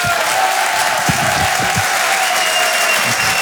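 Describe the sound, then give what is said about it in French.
An audience applauds a comedian coming on stage at a live comedy show. Brisk, dense clapping stays loud and steady throughout, with a few cheers mixed in. “Je vous demande de faire un maximum de bruit et de l'encourager.”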